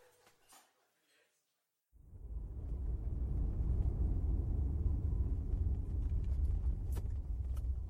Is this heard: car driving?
yes